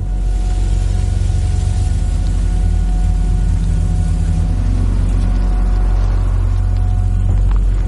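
An SUV's engine rumbles as the vehicle drives slowly out of a car park, a loud, steady, low drone that runs throughout without clear revving.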